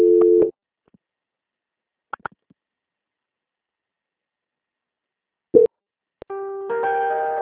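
Telephone line tones during a call transfer: a short steady tone, a few faint clicks, another brief tone burst, then a sustained multi-pitched tone that holds to the end, with no talking.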